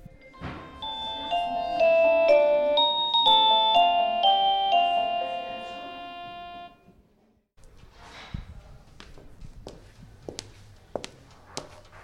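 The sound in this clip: A melodic doorbell chime rings at a company office: several bright, overlapping tones sustain for about six seconds, then fade to quiet room sound with a few sharp clicks and knocks.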